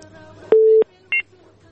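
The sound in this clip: Telephone dialing tones before a call: a longer steady electronic beep, then a short second tone, over a faint background hum.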